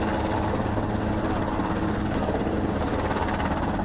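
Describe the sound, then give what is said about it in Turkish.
A helicopter during a sea search-and-rescue drill gives a steady, loud roar of rotor and engine noise that holds without a break throughout. “Helikopter tarafından denize arama kurtarma kitleri atıldı. Ardından kazazedeler helikoptere alınarak güvenli alana taşındı.”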